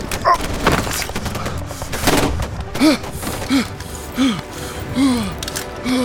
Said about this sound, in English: This is Bravo team. We're under fire. I repeat, we are under fire.